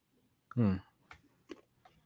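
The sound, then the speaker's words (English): Pistachio shells being cracked open by hand, a few small, sharp, dry clicks spaced apart after a brief vocal sound. “I've been trying too hard over there popping pistachios.”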